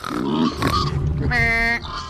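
Pigs oink and grunt in a few rough bursts, then one sustained, tonal, squeal-like call, followed by a brief final grunt.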